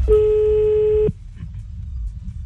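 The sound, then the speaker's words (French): A telephone tone sounds as a call is placed to a friend. One steady, clear tone holds for about a second and cuts off, leaving only low background hiss. “On appelle ton copain”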